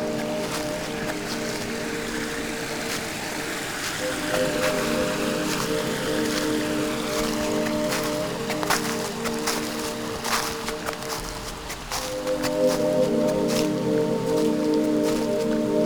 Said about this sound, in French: Les premiers frimas de l'hiver au bord d'un petit ruisseau.